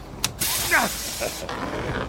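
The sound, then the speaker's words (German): A vehicle door unlatches and swings open after a button press, with a sharp click, a few mechanical clunks and a short creaking squeal, all fairly loud. “Ah, die Tür ist offen.”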